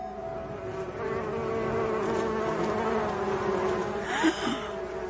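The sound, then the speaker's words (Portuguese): Steady buzzing drone like a swarm of bees, continuous for about five seconds, with a brief louder swell near the end. No voices. “o que é isso? Olhem, crianças, que ruído estranho, não é? Parece um zumbido de abelhas.”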